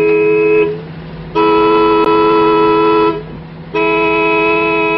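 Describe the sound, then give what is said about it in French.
A car horn honks impatiently behind a driver on the road, giving three long, loud, buzzy blasts with a softer steady horn tone lingering between them. “Allez, klaxonnez encore. Encore.”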